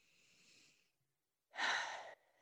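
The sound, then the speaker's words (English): A big breath: a soft, drawn-out breath, a short silence, then a loud, sharp, breathy rush that cuts off abruptly. Fairly faint overall, with no talk. “Big breath there.”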